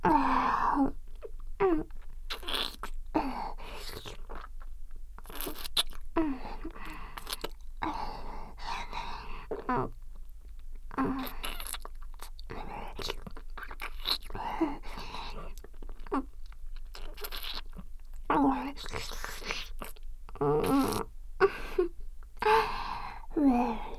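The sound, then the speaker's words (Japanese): Many soft, wet kissing smacks repeat irregularly throughout, quiet and intimate, mixed with breathy moans and gasps. “ねえ、もっと、もっとキスしよう。”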